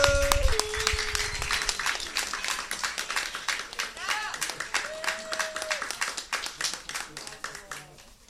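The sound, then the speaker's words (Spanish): Applause from a crowd at a community gathering honouring a comrade, many sharp hand claps in a dense, lively patter that fades slightly toward the end, with whistles and cheering voices over it. “a la Josefa, una gran compañera, un aplauso, por favor”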